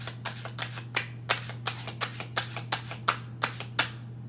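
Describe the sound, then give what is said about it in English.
A deck of tarot cards is shuffled in many quick, evenly spaced crisp snaps and flicks, steady in rhythm over a constant low hum. “I'll show you the cards. Let me show you the cards. Let me finish the shuffle.”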